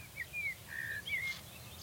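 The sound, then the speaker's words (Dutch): Faint song of a song thrush and a blackbird near a small castle, a few short clear whistled phrases at a high pitch over quiet background hiss. “Ik hoor een zanglijster en een merel.”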